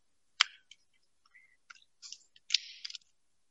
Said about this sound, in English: So you have to peel off the top cellophane, like so, and there is your wafer. And then you peel off the bottom for the wine.